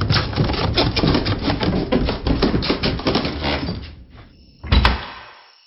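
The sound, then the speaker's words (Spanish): A cellar door is shut in a hurry in a horror audio drama. Several seconds of dense, rapid clattering lead into one heavy, low thump near the end, followed by quiet. “salimos de allí a toda prisa y cerramos la puerta.”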